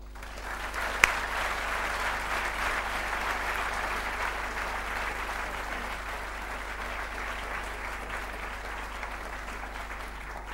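An audience applauds to welcome a lecturer. The clapping is sustained, dense and even, easing off only slightly toward the end.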